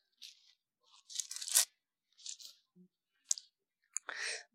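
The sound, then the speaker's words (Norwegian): Pages of a Bible are flipped: several faint, crisp papery rustles and flicks come in short bursts separated by quiet gaps. “Bare bla her.”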